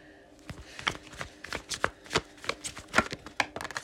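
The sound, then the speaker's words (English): Tarot cards drawn and handled from a deck make many quick, sharp papery flicks and slaps in an irregular rhythm, moderately loud throughout, with no voices. “Next card out. Next two cards out.”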